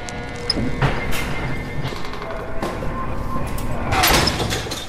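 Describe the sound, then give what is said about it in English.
Heavy metal bangs and clanks of a prison door slamming shut at San Quentin, a few sharp impacts spread over a constant noisy background, the loudest crash near the end. “That's the sound of the San Quentin prison door slamming as our guest Earlonne Woods was released in late November after being incarcerated there for 7 years.”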